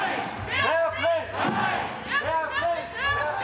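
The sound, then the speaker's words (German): A protest crowd chanting against military conscription, shouting rhythmic slogans together in repeated phrases that rise and fall in loud waves. “Gegen Musterung, gegen Wehrdienst. Mit Sprechchören und Plakaten.”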